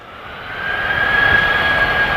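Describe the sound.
Low, booming drone of a singing sand dune, a steady jet-like roar resembling a large airliner taking off. It swells slightly in loudness and carries a faint sustained whistling tone, with no talk.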